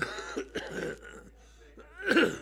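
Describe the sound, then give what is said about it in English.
Harsh coughing and throat clearing from a man choking mid-joke during a Bible talk: a few rough bursts spread across the moment, with voiced strain between them and the loudest hack at the end. “Excuse me, I'm choking on my own joke.”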